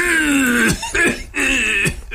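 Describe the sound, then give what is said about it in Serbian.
A person deliberately coughs and clears the throat as a staged demonstration: three drawn-out, voiced, rasping bursts, each ending in a sharp downward drop, loud and alone. “Ja krenem da kašljem. Pošto vidim da nemam reakciju, ja jače i gori do gušenja.”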